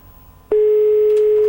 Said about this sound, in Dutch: Gaat die over? Ja, hij gaat over.